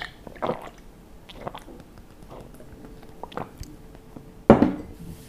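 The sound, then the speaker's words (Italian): Someone gulping down the last sip of alcohol from a mug makes a few soft, wet mouth and swallowing sounds, followed near the end by a louder, sharper clunk. “E giù l'ultimo sorso.”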